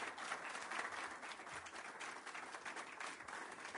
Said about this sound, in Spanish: Así que yo creo que lo bueno es brindar un fuerte aplauso, celebrar el Día de la Educación Pública, que lo hacemos entre todos y todas.